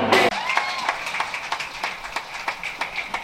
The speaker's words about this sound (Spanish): Fuertes aplausos para estos compañeros artistas que han venido a participar de manera solidaria